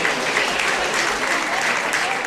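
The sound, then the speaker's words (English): A crowd applauds voters, many of them elderly, as they come out of a polling station in Spain: thick, sustained clapping at an even level throughout. “What you hear there is the crowd applauding people as they come out from voting, especially elderly people who have lived through other really tumultuous times in Spain's history.”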